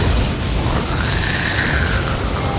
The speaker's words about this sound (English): Getting ready for blast off. Countdown from 10. Lift off.